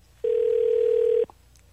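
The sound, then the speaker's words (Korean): A telephone dial tone sounds while a call is being placed: one steady, unbroken mid-pitched tone, loud and alone, lasting about a second before it stops abruptly. “오한 씨 전화 한번 걸어주시기 바랍니다”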